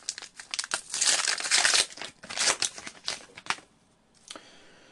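Crinkly plastic of a trading card booster pack wrapper being torn open and crumpled. Many rapid crackling bursts rise and fall for about three and a half seconds, then a near-silent pause before one last brief crinkle.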